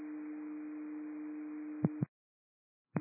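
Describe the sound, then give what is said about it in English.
A radio dispatch alert tone holds a steady, single low pitch over hiss for about two seconds, cuts off with two sharp clicks, then a short silence before another click. “you receive tones for the Delta difficulty breathing off Myrtle Street”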